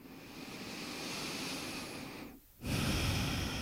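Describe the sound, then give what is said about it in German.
Slow breathing during a guided relaxation exercise: a long, airy breath in, a brief pause, then a louder, rushing breath out, with no talk over it. “Atme ein, atme aus.”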